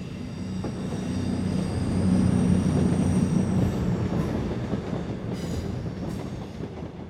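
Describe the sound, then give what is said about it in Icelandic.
Trains rolling into Waverley Station in Edinburgh: a continuous rumble of wheels on track with thin, high wheel squeal running through it. The noise swells toward the middle and eases slightly near the end. “Lestirnar aka inn á hina frægu Waverley Station”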